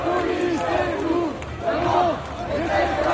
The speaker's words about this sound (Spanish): este es el sonido de Lyon, donde ha habido protestas, no solo en Lyon, en realidad en todo el país, contra la falta de inversión en educación.